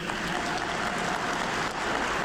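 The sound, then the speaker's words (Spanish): Applause from a crowd of pilgrims at a papal audience, a dense, steady patter of many hands clapping at once, sustained evenly without a break or any voices. “Sonríe el Papa a los que aplauden.”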